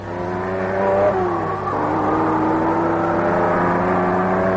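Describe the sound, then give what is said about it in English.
A Maserati engine drones loudly at 75 mph through the curves at Bridgehampton, a steady, rich roar whose pitch dips twice early on and then climbs slowly as it keeps pulling. “This is what you hear if you're driving a Maserati 75 miles an hour through the curves at Bridgehampton.”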